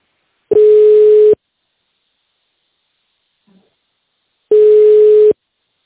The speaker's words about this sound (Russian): Наберите добавочный номер сотрудника или оставайтесь на линии.